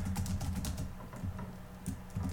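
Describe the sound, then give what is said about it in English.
Rapid typing on a computer keyboard as someone enters an answer: a steady, dense stream of light key clicks with low thumps, continuing throughout without any talk. “I'm just typing my answer here.”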